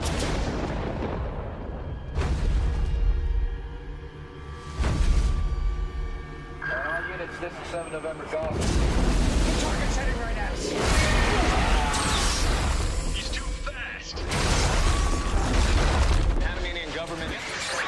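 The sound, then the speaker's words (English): Trailer audio for the 1998 Godzilla movie: heavy booms and crashing impacts hit every few seconds over a dense, rumbling score, with voices speaking between the blasts. “Play trailer. It's Godzilla from 1998.”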